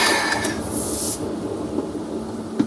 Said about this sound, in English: I am at a railroad crossing waiting for a railroad in some small, tiny Texas town